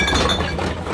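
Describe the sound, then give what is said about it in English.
Empty drink containers clinking together as they are gathered for recycling, a dense, continuous jangling clatter without pause. “That's the sound of change adding up. Recycle Rewards gives you 10 cents for every eligible container you return.”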